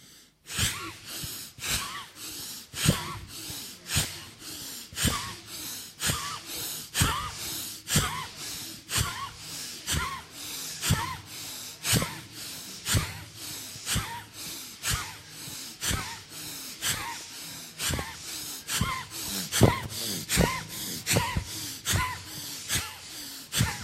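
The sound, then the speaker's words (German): Forceful breaths through the nose during a yoga breathing exercise, many short, sharp bursts repeating in a steady, even rhythm throughout. “Hier beim Einatmen sind die Arme oben und beim Ausatmen gehen sie runter. Gut, ihr könnt beginnen. Einatmen.”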